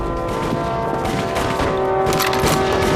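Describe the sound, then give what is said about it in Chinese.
Cannon and gunfire in a wartime battle scene, with Japanese troops ordered to shell anti-Japanese resistance fighters: a dense, loud, continuous barrage of overlapping blasts that holds steady throughout, with no voices. “给老子开炮！”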